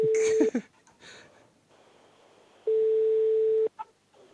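Ringing tone of an unanswered call placed from a mobile phone: a short steady beep, then a longer one after a quiet pause, both faint and level in pitch.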